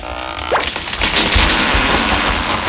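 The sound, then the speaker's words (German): A cartoon oak tree shoots up inside a hut and smashes the roof: a rising whooshing sweep leads into a dense, noisy crashing rumble with thuds of breaking wood that stays loud to the end. “Als Obelix die Eichel in der Hütte von Asterix auf den Boden wirft, schießt im Nu eine mächtige Eiche in die Höhe und zertrümmert das Dach.”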